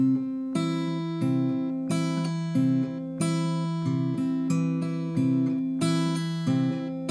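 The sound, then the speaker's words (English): An acoustic guitar is fingerpicked with thumb, middle and ring fingers, with pinches where the thumb and a finger pluck together. The fuller, brighter pinched notes stand out at intervals within a steady run of ringing single notes. “You can even throw some pinches in there, which would be the thumb and the middle or the thumb and the ring activating the strings at the same time. That would sound like this.”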